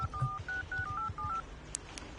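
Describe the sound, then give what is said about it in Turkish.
A telephone number being dialed: a quick series of short, bright touch-tone beeps at slightly different pitches, heard alone at low level. “O zaman hemen arıyorum Nail'i.”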